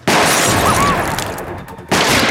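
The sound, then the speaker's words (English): Gunfire erupts outside a restaurant as bullets fly, a dense, loud barrage of overlapping shots that dips briefly and then surges back at full force. “Everyone rushes back into the restaurant as bullets fly.”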